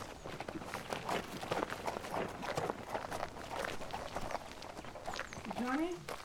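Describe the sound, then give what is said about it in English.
In an audio drama, running footsteps hurry toward trees in a quick, steady patter that continues throughout, beneath a narrating voice. “Logan crouched down and hurried straight towards the trees, making sure the intact part of the church was between them and the arriving cart.”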